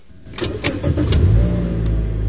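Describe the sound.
A car engine starts in a shaded parking garage: a few quick starter cranks, then the engine catches and settles into a steady, loud, low idle.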